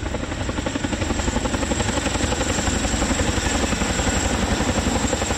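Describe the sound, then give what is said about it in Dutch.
A large transport helicopter, about 30 metres long, comes in to land, its rotors beating in a loud, continuous rapid thump over a steady engine whine, with no talk. “En de indrukwekkende helikopter is zo'n 30 meter lang en kan grote groepen mensen of zware ladingen vervoeren.”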